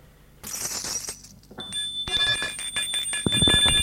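A concierge rings a bell at a hotel reception to summon the bellboy. Bright metallic tones ring out and linger, mixed with clattering and rustling noises.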